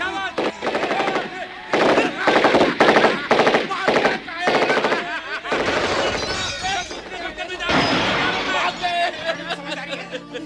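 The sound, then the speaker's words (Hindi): Rapid bursts of machine-gun fire in a battle scene with soldiers, rifles and grenades. Loud rattling volleys alternate with short gaps, and shouting voices mix in. “अरे दुश्मन आ रहे, firing करो,”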